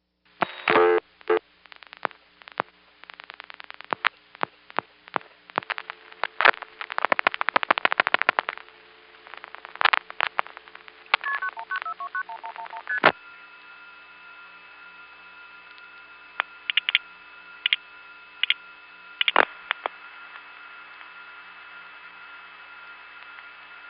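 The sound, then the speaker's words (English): A telephone number is dial-pulsed through a crossbar tandem with a loose connection on the intercept trunk: faint clicks and short bursts of pulsing come first, then a steady tone sounds with scattered clicks over it. “Let's try dialing again, and hopefully the 1111 will be dial pulsed out at a normal speed this time.”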